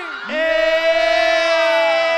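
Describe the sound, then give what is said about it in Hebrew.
A crowd on the Bat Yam promenade cheers and shouts at a live radio show event. The loud, sustained roar of voices swells in after a brief quieter start and holds steady to the end. “בת ים, תעשו לי רעש בסטורי!”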